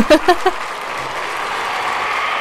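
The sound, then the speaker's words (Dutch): Applause that follows a few brief vocal exclamations, settling into an even, steady hiss of many clapping hands that carries on unchanged to the end. “Ja, vooruit, je krijgt dan toch een applaus.”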